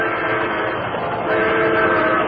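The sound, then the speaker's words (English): A fast-approaching train rumbles loudly along the rails in a dense, continuous roar that swells slightly in loudness midway through, with no voices over it. “The headlight of a fast-approaching crane revealed the Lone Ranger working desperately to cut the ropes that held his Indian friend Tonto to the gleaming rails.”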